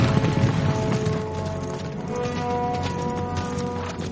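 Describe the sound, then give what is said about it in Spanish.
Horses galloping as riders hurry along, a rumbling, fairly steady hoofbeat texture lasting a few seconds beneath sustained tonal sound, without speech. “Eomer y sus hombres cabalgan con Ceodred malherido.”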